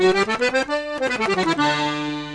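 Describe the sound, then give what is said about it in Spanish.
An accordion played on the master register, with all four reed voices open, gives a bright, full tone: a quick run of short notes, then a brief held tone, more rapid notes, and finally a sustained chord that rings out alone. “Ese acá en el medio que se llama Master. Sí. Están todas las voces abiertas.”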